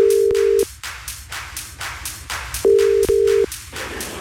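A telephone ringback tone as a radio host phones a contest winner: a steady low electronic tone at the start, then two more shortly before the end, all over a rhythmic music bed with a regular beat.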